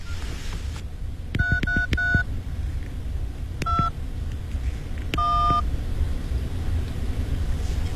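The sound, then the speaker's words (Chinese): A telephone number is punched in to call a police officer. Sharp keypad tones beep in a quick run of four, then a short pair after a pause, then a longer final tone, all over a low, steady rumble. “对，我给乔警官打电话。”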